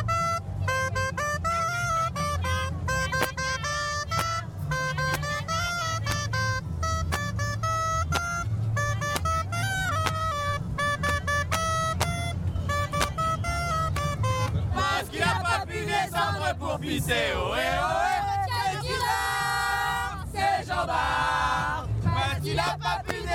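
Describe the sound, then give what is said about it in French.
A gralla, the Catalan double-reed instrument, plays a bright, shrill, nasal melody of quick repeated notes that later turn into sweeping, sliding phrases, loud and continuous throughout. “Mais justement, on va écouter un morceau de graille. Allez, un instrument catalan. On va écouter ça, c'est très joli. Donc on écoute la graille.”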